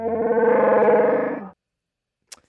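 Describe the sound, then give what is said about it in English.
Chewbacca the Wookiee from Star Wars roars once, a rough, warbling, growling howl lasting about a second and a half that cuts off abruptly. A brief faint tick follows in the silence. “I believe that is a Wookiee. Ding, ding, ding. Yes, it's obviously Chewbacca, the Wookiee from Star Wars.”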